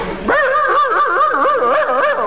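A person imitates a dog howling ominously, holding one loud, wavering howl with a warbling, tremulous pitch.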